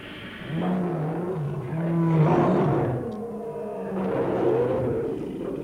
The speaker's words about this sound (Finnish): Katso. Ne tulevat koko ajan lähemmäksi. Leijonat, 5 metrin päässä.